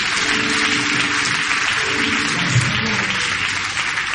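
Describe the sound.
Applause from a church audience acclaiming the Lord, a steady loud wash of clapping hands that runs the full length with little change, no distinct voices above it.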